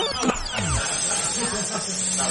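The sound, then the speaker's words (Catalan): A live snake worn around the neck like a scarf hisses steadily, a continuous breathy noise that holds throughout with faint low murmurs beneath it. “Porta una serp com si fos una bufanda.”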